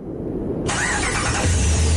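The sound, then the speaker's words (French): A Ram 1500 pickup truck engine starting: a sudden whirring burst as the starter cranks, then the engine catches and settles into a deep, steady, rumbling idle. “Le Ram 1500. Pas juste un camion, c'est une légende sur roues”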